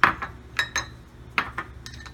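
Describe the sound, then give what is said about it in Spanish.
Light clinks and taps ring out as a cup of flour is sifted for biscuits: several short, bright, metallic chinks at irregular intervals over a quiet background. “Para hacer los biscuits, tamizamos una taza de harina y vamos a colocar”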